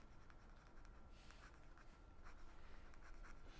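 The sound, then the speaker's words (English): A pen writes on paper, a faint continuous scratching that keeps going steadily for several seconds with no talk over it. “I'm in the middle of writing. So I, I have a tough time talking and writing at the same time.”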